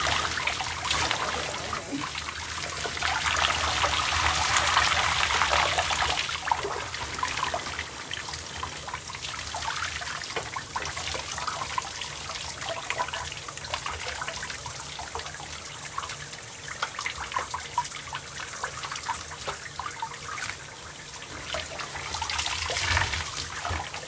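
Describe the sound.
Water runs while something is rinsed off, giving a steady trickling, splashing flow. It swells louder early on, then settles into a softer, even stream with small fluctuations, and no one speaks.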